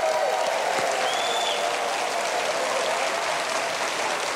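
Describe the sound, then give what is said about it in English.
A studio audience applauds a television show's viewers with steady, dense clapping that stays loud and even from start to finish. “And for those of you who are here in our studio, why don't you help me give our viewers at home a great big hand for watching?”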